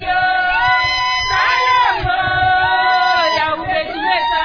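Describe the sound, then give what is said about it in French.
About twenty women sing a welcoming chant for a visiting delegation in wide fields near Kisantu. Their voices blend in loud, sustained harmony, with melodic lines that rise and fall throughout. “C'est avec cette mélopée qu'une vingtaine de femmes accueillent la délégation dans une vaste étendue de champs à environ 1 km de Kinkonka, près de Kisantu.”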